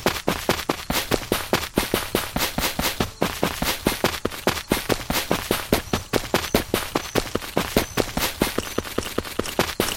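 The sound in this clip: Rapid, steady string of sharp pistol shots fired in a video game. Many loud, crisp cracks follow one another at an even pace for the whole stretch, with no talk.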